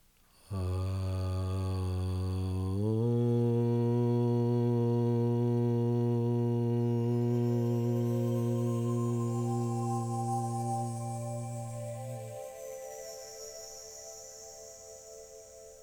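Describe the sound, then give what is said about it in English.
A group chants a single long Aum, the hymn of the universe, as a steady low drone. Its tone shifts early on, holds for several seconds, then breaks off and fades into a faint tail. “end of suffering meditation by chanting the hymn of the universe, Aum, one time. Take a long, slow, deep breath in.”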